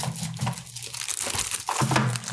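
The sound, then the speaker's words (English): Paper crinkles and tears as an envelope is ripped open at a mock movie awards ceremony: a continuous, loud, crackly rustle with sharp ripping bursts that lasts the whole stretch, with no voices. “rip open the envelope.”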